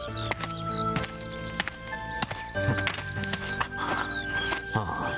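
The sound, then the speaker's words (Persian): Horse hooves clip-clop in a series of sharp taps while a horse is saddled, with voices and tonal sounds underneath. “اسبمان را زین کن.”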